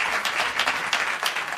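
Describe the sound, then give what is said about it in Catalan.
Audience applause at a special event, a thick, even wash of many hands clapping throughout the short moment, with no talking over it. “Un aplaudiment per elles, sisplau.”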